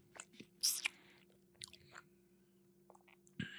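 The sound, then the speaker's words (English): Chewing on sticky barbecue: quiet, wet smacking and squishing bites in an irregular rhythm, with a sharper, louder burst near the start and another near the end. “God damn, that sticky barbecue from Bag of Bowls is delicious. So freaking good.”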